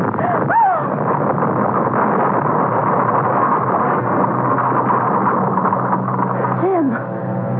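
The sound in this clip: A house fire blazes after a wastebasket fire spreads, a radio drama effect: a dense, continuous roaring rumble fills the whole clip at a steady, fairly loud level.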